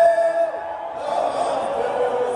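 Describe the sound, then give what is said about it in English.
The national anthem is sung live inside a basketball arena at Game 1 of Heat vs Nuggets: a sustained sung line carries over a broad, steady wash of crowd noise. “want to play like a part of even the national anthem that was being sung, and you could feel the energy in the crowd as it's going down. Take a listen to this.”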